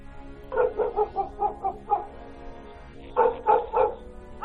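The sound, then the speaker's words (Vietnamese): Dog barking inside a house: a quick run of sharp, mid-pitched barks, a brief pause, then another short burst of rapid barks. “trong nhà vọng ra tiếng chó sủa, vang cả núi đồi, làm tôi giật cả mình.”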